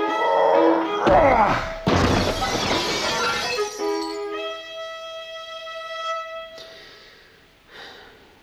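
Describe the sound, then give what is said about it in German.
A desk thrown through an office window, a heavy crash followed by loud shattering glass, then a quieter, fading tail. “Schmeiß diesen scheiß Schreibtisch durch das scheiß Fenster!”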